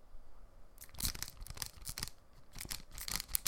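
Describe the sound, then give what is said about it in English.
A pack of trading cards being torn open: after a brief quiet start, a run of crisp, loud crinkling and ripping bursts follows in an irregular rhythm to the end. “That's the sound of trading cards in a pack.”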